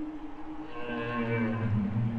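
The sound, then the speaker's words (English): Several male humpback whales sing together late at night in autumn off the coast of British Columbia. Low droning tones overlap with higher, drawn-out moans that rise and waver, forming a continuous layered chorus. “You can hear the lower, more distant tones in the background, which definitely indicates more than one whale.”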